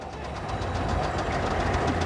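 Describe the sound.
A single-cylinder engine runs steadily with a rhythmic, knocking chug, a continuous mechanical clatter that holds at an even level throughout, with no voices.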